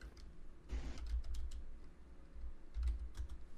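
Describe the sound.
Typing on a computer keyboard: a quick, uneven run of light key clicks over a low, steady background, quiet and without speech.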